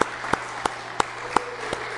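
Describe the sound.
A church audience applauding the organist: a steady wash of clapping with sharper single claps punching through at a regular, unhurried beat.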